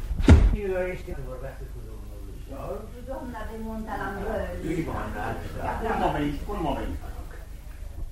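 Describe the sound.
A door opens with one loud, low thud at the very start, then people talk continuously.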